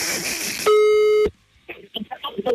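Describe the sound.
A telephone ringing tone as a call is placed, one steady, loud beep lasting about half a second, with people talking just before and after it.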